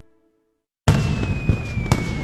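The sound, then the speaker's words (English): Fireworks bursting at an Independence Day lakeside show: sudden silence broken by a loud crackling burst that keeps rolling, with two sharper pops inside it and a thin, slowly falling whistle running through. “Join us for Johnson Lake's Light Up the Lake fireworks show Friday, July 3rd at 10 p.m.”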